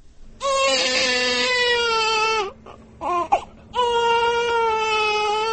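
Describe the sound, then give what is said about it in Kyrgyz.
A newborn baby cries in a new village maternity home: two long, loud wailing cries separated by a short pause filled with brief sobbing catches. “Ошентип Сай айылына курулган жаңы төрөт үйүндөгү алгачкы мыркайдын үнү жаңырып отурат.”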